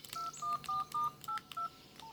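Telephone keypad tones dial a call to the Polish embassy: a quick series of short, clean beeps at shifting pitches, with brief gaps and faint clicks between presses.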